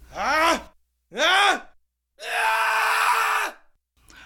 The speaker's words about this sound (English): Wait, pause here briefly to allow all you kids to groan.